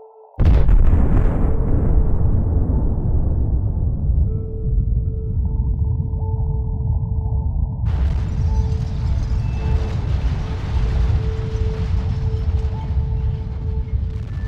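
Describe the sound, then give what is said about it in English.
The Tsar Bomba nuclear bomb explosion: a sudden, very loud blast gives way to a long, sustained roar that stays heavy to the end, with steady tones running through it. “Tsar Bomba.”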